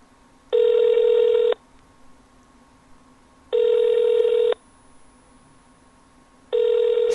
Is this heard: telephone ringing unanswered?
yes